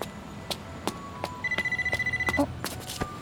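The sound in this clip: A phone starts ringing with a rapid, pulsing electronic trill that lasts about a second, over scattered sharp clicks and ticks.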